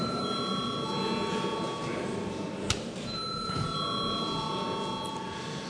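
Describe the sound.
Electric bell ringing in a parliament chamber before a vote, a faint, steady, shrill tone that stops briefly once midway and resumes, over low background murmur.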